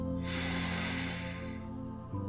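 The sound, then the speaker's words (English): One long, full breath drawn in through the nose during a guided meditation: a steady, airy hiss lasting about a second and a half, heard over soft, sustained music tones that continue after it fades. “Let's take one nice full breath together, all the way in,”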